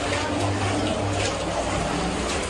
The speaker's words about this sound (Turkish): Akşam saatlerinde etkili olan şiddetli yağışlar Karamürsel ilçesi ve çevresini vurdu. Özellikle giriş ve bodrum katlarını su bastı.